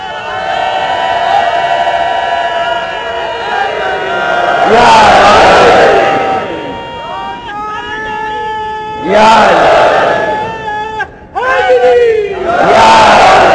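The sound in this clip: A crowd at a majlis, a religious gathering, chants a slogan loudly. Long, drawn-out tones from a leading voice alternate with three loud bursts of massed shouting from the crowd.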